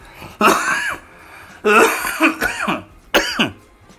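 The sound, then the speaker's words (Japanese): Someone chokes and breaks into a coughing fit: three harsh, loud bursts of coughing with short quiet gaps between them, the middle bout stretching into several rapid hacks. “失礼しました。むせちゃって。”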